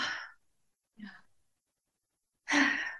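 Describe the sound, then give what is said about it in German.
Deep breaths are drawn and let out as a few soft, airy bursts separated by short silences, with no other sound between them. “Erstmal alle vor einem tiefen Atemzug.”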